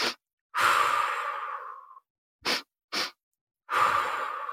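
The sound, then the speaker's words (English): Breathing exercise: quick inhales sniffed through the nose alternate with long, steady exhales through the mouth. Two short sniffs come back to back before the final drawn-out breath out, with no talking. “I did this breath practice of just breathing in 2 strokes through my nose and 1 out through my mouth.”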